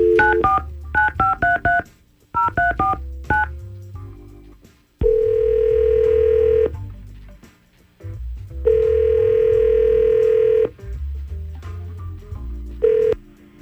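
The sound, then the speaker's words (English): Touch-tone dialing of a phone call: a quick run of keypad beeps in two bursts, then two long steady ringback tones separated by a pause, with a third starting at the end. “So we're going to try to call Catherine right now and see what's going on.”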